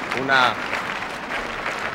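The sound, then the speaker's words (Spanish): A protest crowd claps at a huge anti-ETA demonstration in Bilbao, a steady patter of hands with a brief shouted voice rising above it early on. “Gritos de libertad, Askatú, palmas, una serena indignación,”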